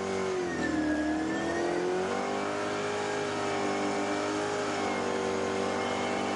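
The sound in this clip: Engine of a race car driven by a champion driver, revving steadily during a ride outside Charlotte, a sustained, loud mid-pitched drone whose tone dips and then rises slightly and holds, with no talk.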